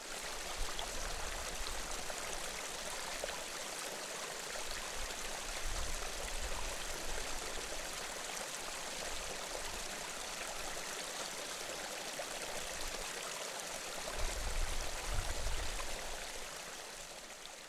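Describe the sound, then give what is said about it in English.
Geothermal activity with bubbling hot water at Krýsuvík, Seltún, on Iceland's Reykjanes Peninsula: a faint, steady rushing and gurgling of water that swells briefly louder near the end. “So that was the noise of geothermal activity at Krusevik,”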